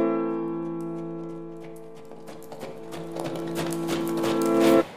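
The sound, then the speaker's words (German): Horse hooves clip-clop as the French emperor rides at the head of his guard through the Brandenburg Gate. A steady run of hoofbeats over a sustained held tone grows louder toward the end. “Kurz darauf reitet der französische Kaiser an der Spitze seiner Garde durch das Brandenburger Tor.”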